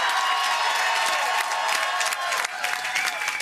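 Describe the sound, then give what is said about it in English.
Supporters cheer and applaud at a Federal Liberal election watch party in North Vancouver as a new Member of Parliament is welcomed. Dense, sustained clapping and cheering form a steady wall of crowd noise. “Those are the sounds from the Federal Liberal Watch Party in North Vancouver last night. And of course, you hear their former Vancouver mayor, now Member of Parliament, Gregor Robertson, and supporters were cheering on Braden Cayley, the new Member of Parliament”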